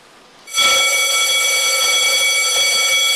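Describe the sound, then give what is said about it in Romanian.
A fire station call-out alarm for a CBRN crew subunit in Jilava, near Bucharest, blares as a loud, steady electronic tone rich in bright harmonics. It starts abruptly after half a second of quiet and holds unbroken to the end. “Aceasta este alarma pe care o vor auzi pompierii nou mutați în subunitatea pentru echipajele CBRN în momentul în care va fi nevoie de intervenția lor.”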